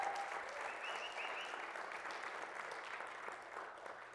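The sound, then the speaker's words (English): Applause from a church audience, a dense, even wash of many hands clapping that holds steady for the whole stretch at a fairly soft level. “So give yourself a hand.”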